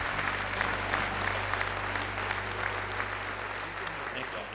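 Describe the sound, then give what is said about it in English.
Audience applause greets a speaker coming on stage at a morning gathering, a dense, steady wash of clapping that holds at an even, loud level for the whole stretch with no break. “Put your hands together. Make a lot of noise for Joel Holm.”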